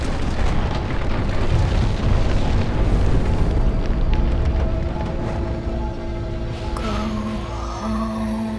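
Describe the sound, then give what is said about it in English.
A missile explodes against an invisible force field in a dramatized scene: a loud, deep booming roar with a rumbling low end that lingers for several seconds and gradually thins, leaving a faint tonal hum. “The missile homes in, skims over the falling Turop and explodes against an invisible force field just before hitting Aurora. The fireball swirls around her without touching her.”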